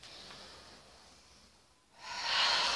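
Slow, deep breathing during a standing relaxation exercise: a soft, airy exhale fades out, then after a brief hush a louder, hissing breath swells near the end, with no voices.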